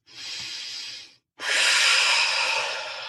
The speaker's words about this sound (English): Take the breath in through the nose and out through the mouth on an F.